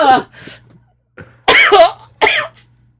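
Gagging coughs come from a person who hit the back of their throat while tasting something foul. Several harsh, retching, partly voiced bursts are separated by short pauses, with a faint low hum underneath.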